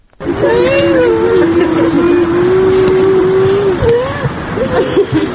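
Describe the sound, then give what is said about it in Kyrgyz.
Cars of a funeral procession pull away in Bishkek, a large vehicle carrying the body leading and passenger cars following behind. A loud, steady engine drone holds nearly one pitch with slight wavering throughout. “Салт кылайык алдыда сөөк салынган чоң машина түшүп, артынан болсо жеңил машинелер чубап жөнөдү.”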